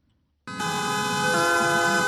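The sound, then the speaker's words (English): Taxi horns blaring during a street protest by French taxi drivers against a ride-hailing service: after a brief silence, a loud, sustained wall of overlapping horn tones starts abruptly and holds steady to the end. “That's the sound of French taxi drivers honking their horns.”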